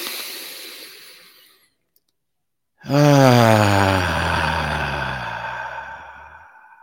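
A deep breath taken in a guided heart-centred exercise: a soft, breathy rush fading away, a brief silence, then a long, voiced, sighing breath that starts loud and slowly fades.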